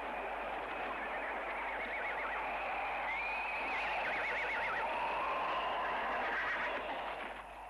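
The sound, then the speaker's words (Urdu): Horses gallop over the bodies of fallen martyrs on a battlefield, making a dense, continuous rush of hooves with shrill whinnying rising above it throughout. “لاشۂ شہدا پر گھوڑے دوڑنے لگے۔”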